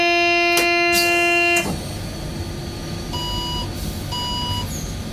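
An unpleasant electronic warning beep in a train cab: a sustained, buzzy tone rich in overtones cuts off abruptly, then two shorter, thinner beeps follow over a steady low cab rumble.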